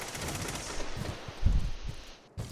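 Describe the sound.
Gunfire in the video game Destiny 2 comes as a few muffled, low thumping shots over a continuous noisy hiss. The whole passage stays fairly faint.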